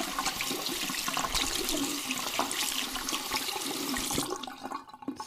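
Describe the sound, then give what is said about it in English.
Bathroom water sounds while someone washes their hands: a loud, steady rush of running water, like a tap or flush, that holds level and then fades out near the end. “Now, if you excuse me, I have to go wash my hands.”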